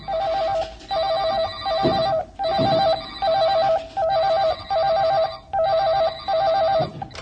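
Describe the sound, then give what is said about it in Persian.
Several telephones ringing at once in an office as the power comes back on. A warbling electronic ring repeats in steady, evenly spaced bursts, loud and with no voices. “همه ی تلفن ها شروع میکنن به زنگ زدن.”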